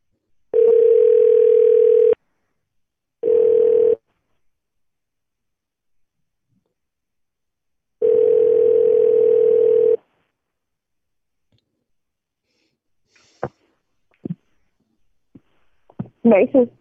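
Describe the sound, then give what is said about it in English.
Telephone dial tone while a number is dialed: three bursts of a loud, steady single-pitch tone separated by silence, the second one shortest. A few faint, sharp clicks follow. “so can you mute me and I'll we'll just dial this number. I'm gonna put it in the chat. Well, I just dialed the number.”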